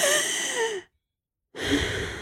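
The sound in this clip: A deep breath drawn in and let out: two soft, breathy rushes of air, each under a second long, separated by a short stretch of silence, with no talking.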